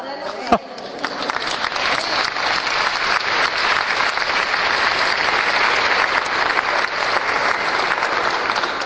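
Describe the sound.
An audience bursts into applause: dense, sustained clapping that holds at an even, fairly loud level for nearly nine seconds, with one sharp knock near the start.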